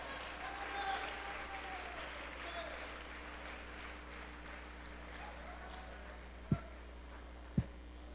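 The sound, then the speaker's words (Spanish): Faint applause from a church audience during a Good Friday sermon, a soft, steady patter over a low hum, with two sharp thumps near the end. “Dele un aplauso a Cristo.”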